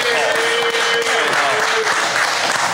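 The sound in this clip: Audience applause and cheering roar continuously at high loudness for nearly three seconds, with crowd voices and whoops mixed into the clapping.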